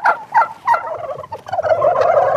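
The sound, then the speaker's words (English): Turkeys gobble on a green rolling farm pasture in central Missouri, a flock of about a thousand white birds. Loud warbling gobbles come in several quick bursts, then overlap into a dense, continuous chorus. “If you're a turkey on a farm in the United States, your days are numbered.”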